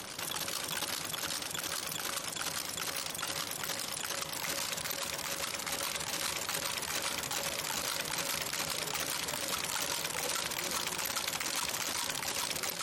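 Type-casting machine in a printing museum casting typographic characters one after another, producing a dense, continuous mechanical whir laced with rapid, regular clicking throughout.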